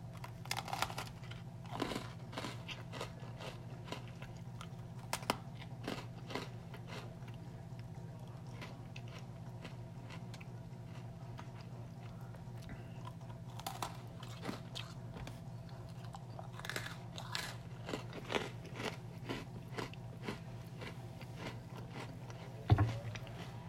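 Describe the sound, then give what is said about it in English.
Crisp crunching and chewing from bites of a Strawberry Frosted Donut Oreo cookie: many sharp, quiet crackles scattered irregularly over a steady low hum, with no talking. “Still not sure what this tan cream's supposed to be. Maybe it'll help if I eat the whole cookie. Let's try that.”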